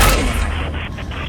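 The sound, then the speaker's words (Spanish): A gunshot is fired at a computer monitor, a single loud blast right at the start followed by a broad, rumbling tail that slowly fades, with no voices. “¿Ha disparado contra tu monitor?”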